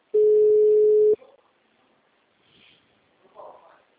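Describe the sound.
A single steady telephone tone sounds for about a second as a call is placed. The loud, clean, mid-pitched hum cuts off sharply, followed by faint scattered sounds and near silence.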